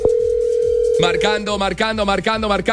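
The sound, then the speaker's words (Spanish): A telephone line tone: a steady, unbroken dial tone for about a second, then a fast repeating ringing pattern of bright pulsing tones that fills the rest. “Marcando, llamando.”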